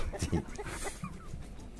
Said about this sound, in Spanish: No escucha la gallina que hay atrás.